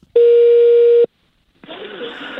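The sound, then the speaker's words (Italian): A telephone busy tone after a dropped call line: one flat, steady, mid-pitched beep lasting about a second, then a brief silence before a voice begins talking. “deve essere caduta la linea, ma era una persona gentile, la richiamo.”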